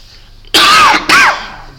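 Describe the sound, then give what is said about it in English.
Someone clears their throat and coughs against a tickle in the throat. There are two loud, harsh bursts close together, the second shorter, over faint background hum. “Sound like you're dying there on us. You've got a bit of a tickle in your throat here, mate.”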